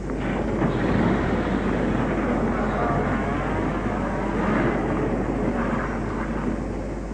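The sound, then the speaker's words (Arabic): A taxi arriving, heard as a steady engine rumble and broad traffic-like noise that holds continuously for the whole stretch with no clear breaks. “والتاكسي اهو. تاكسي.”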